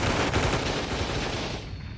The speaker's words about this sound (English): You shooting a pop gun? You'll never blast through like that.